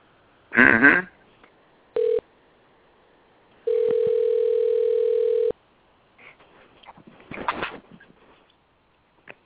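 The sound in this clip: A telephone call is dialed and the line rings: a brief steady tone, then one long unbroken ringing tone, with voices talking before and after.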